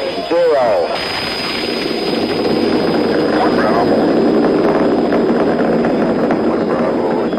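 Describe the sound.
The Apollo 11 Saturn V rocket engines ignite and launch with a loud, continuous roaring rumble that builds and holds steady, while a voice speaks over it.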